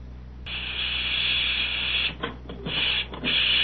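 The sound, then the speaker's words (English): Steam hiss from a clothes pressing machine: a sharp click, then a loud, steady high hiss that breaks into a few short stuttering bursts near the end. “will you stop that pressing and talk business with me?”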